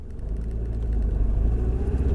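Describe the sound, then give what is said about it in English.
Car engine while driving up to a park: a loud, steady low rumble with a constant engine drone and no talk. “Okay, so I'm driving up to the park now.”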